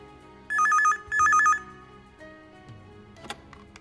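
A telephone rings in two short bursts of bright, warbling electronic trill. The ringing is loud over a low background hum, and fainter scattered sounds follow once it stops.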